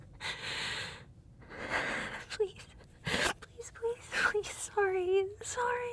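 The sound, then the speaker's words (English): Heavy, ragged breathing from a frightened person struggling to catch their breath: a few long, noisy breaths, then shorter gasps and voiced, whimpering sounds toward the end. “Please, please, just let me catch my breath.”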